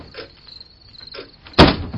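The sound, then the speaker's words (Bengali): A room door opens late at night with a sudden loud scrape near the end, after a quiet stretch filled with faint, high cricket chirps. “রাত 11টা নাগাদ বিলুর ঘরের দরজা খুলে গেল।”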